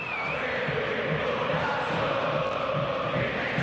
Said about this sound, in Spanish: Esta es la banda sonora del miércoles por la noche. ¿Qué merece esta hinchada? El público de River.